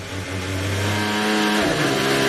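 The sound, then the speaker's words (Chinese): A racing car's engine brakes and downshifts as the driver is forced to brake very early, a loud, sustained buzzing whine whose harmonics shift as the gears drop. “我们从这个发动机制动啊、减档啊，能够听到，就是他也是被迫很早很早就刹车了”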